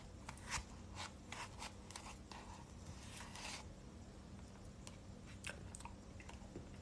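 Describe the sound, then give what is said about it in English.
Ice cream being eaten, with soft, faint wet mouth sounds: many small smacks and chewing clicks scattered unevenly over a low, steady background hum. “Rock, what are you eating right now? I'm eating ice cream. It's delicious.”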